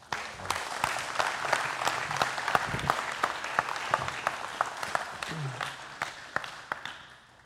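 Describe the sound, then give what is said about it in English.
Applause from a church audience welcoming a guest speaker: steady clapping with many sharp individual claps standing out, holding at an even level before thinning toward the end. “So let's give a hand to the Lord as we welcome”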